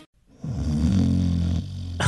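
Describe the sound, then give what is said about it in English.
One drawn-out snore from a sleeping person. It is a low, rasping, throaty rumble that holds for over a second, then eases off, with no talk around it. “It's not just the snorer losing sleep. I'm exhausted. Every night, I can't sleep. Neither can they. Your snoring could be sleep apnea, a condition that disrupts breathing all night.”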